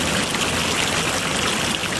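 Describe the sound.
Water flowing at a spring: a steady, unbroken rush and trickle of water, even in loudness throughout, with no voices.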